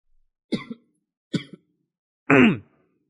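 A person coughing in three bursts. The first two are short, each with a quick double pulse, and the third is longer and rougher, with a voiced, groaning edge. No speech is heard.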